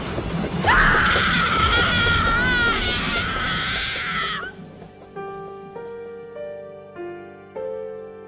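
A piercing, anguished scream, as of a woman struck by a railway engine, rises sharply and wavers at a high pitch for about four seconds, then breaks off into slow, sustained tonal notes, like soft piano or chime tones.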